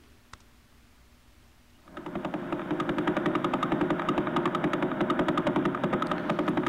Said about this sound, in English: right now, as we sit here, as we're worshiping in church this morning, this is what the Vela pulsar is doing.